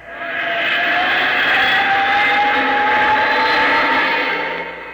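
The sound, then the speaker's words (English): A small vehicle accelerating rapidly, its engine giving a loud, sustained whine whose pitch creeps slightly upward. The sound swells in, holds steady and eases off over five seconds. “Now, hang on. She accelerates like a rocket.”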